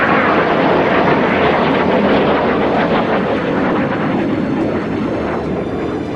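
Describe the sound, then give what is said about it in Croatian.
F-16 fighter jets flying low over Ankara, controlled by coup plotters: a loud, continuous jet roar fills the whole stretch, dense and rumbling, easing only slightly in loudness toward the end. “Borbeni avioni F-16 pod kontrolom pučista počeli su da lete nisko iznad Ankare s ciljem da zastraše narod.”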